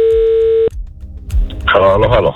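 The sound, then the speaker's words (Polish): A steady telephone dial tone sounds while a call is dialed out from a radio studio. It cuts off abruptly with a click, then quieter line noise follows before a voice begins speaking. “Akurat teraz mówiliście, więc ja wykręciłem numer, więc dzwonimy do Roberta Turnejki.”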